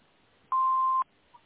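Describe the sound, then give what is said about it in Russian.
Answering machine beep: one clean, steady mid-pitched electronic tone lasting about half a second, loud and alone, with a faint blip after it. “Оставьте, пожалуйста, ваше имя и номер телефона после звукового сигнала.”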